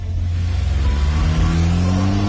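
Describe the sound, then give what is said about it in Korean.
A taxi engine revs as the car drives off: a loud, steady low rumble whose harmonics climb in pitch as it accelerates, continuous throughout with no voices. “택시 문이 열리자 도도는 가방을 안에 넣고 탔다. 그리고 기사에게 영경로로 가달라고 차분하게 말했다.”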